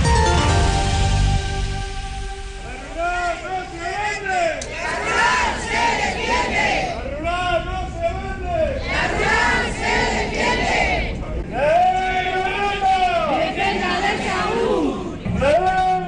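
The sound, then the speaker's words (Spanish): Rural health workers protesting as a large crowd, chanting slogans in loud, rhythmic, rising-and-falling phrases that repeat over constant crowd noise. “Es el sonido de las protestas del personal sanitario de la zona rural.”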